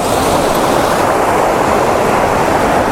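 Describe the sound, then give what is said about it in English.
Roaring water from a waterfall system on a river, a loud, even rush of white noise with no break or change. “kind of impressive waterfall system here, and it looks like the best place to photograph it is down there, although this one is pretty good”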